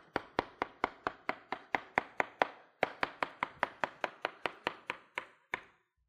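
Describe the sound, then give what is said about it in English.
A knife slices a watermelon into cubes in a checkerboard pattern. Many crisp, evenly spaced chops fall in a steady rhythm, with one brief pause partway through, and no voices are heard. “Now, we're going to take the slices on the top. And all you're doing is slicing these just like a checkerboard.”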